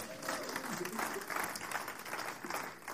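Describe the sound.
Audience applause for a volunteer during a talk, a steady, even wash of many hands clapping with a voice faintly heard over it.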